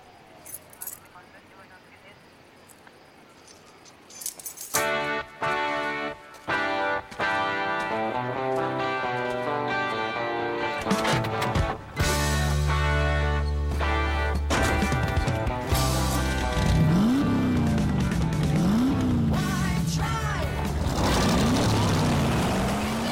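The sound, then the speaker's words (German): A car engine starts and the car is driven, its pitch repeatedly climbing and then dropping as it revs through the gears, loud and sustained amid other busy sound. “Aber in der Zwischenzeit fahre ich den Wagen.”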